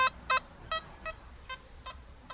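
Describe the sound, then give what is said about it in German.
Hobby metal detector beeping during a meeting with a treasure hunter in Bulgaria: a run of short, bright, buzzy electronic beeps at uneven intervals, each a brief pulse, fairly faint against a low background hiss. “Er bringt seinen Detektor zum Piepen.”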